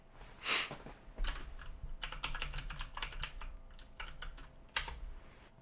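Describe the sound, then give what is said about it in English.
Typing on a computer keyboard to search Google: rapid two-handed keystrokes in dense bursts, with a few louder key presses standing out, no talk. “Let's Google it right now. Live. On air. Just type with both hands. It's so much faster.”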